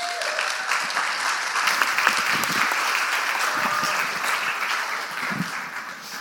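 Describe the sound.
Audience applause welcoming a guest speaker, steady dense clapping from many hands that holds at an even level throughout, with no voices over it.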